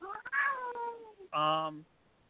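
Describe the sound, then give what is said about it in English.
An unhappy cat meows twice. The first call is a long, drawn-out cry that falls in pitch. After a short gap comes a loud, steadier, tonal meow. “that cat is really not happy.”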